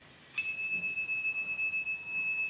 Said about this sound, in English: There's the handbell. It has a cloth-covered handle that he's holding in his hand